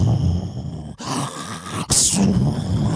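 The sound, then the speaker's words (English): A voice imitating a friend's incredibly loud snoring: a few long, rough, groaning snorts with raspy breath noise, loud and without other talk. “he is such a loud snorer. And he started to snore so incredibly loud. He's like,”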